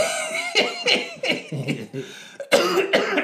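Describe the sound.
A run of harsh, throaty coughs comes in several quick bursts with brief gaps. The final bursts are the loudest.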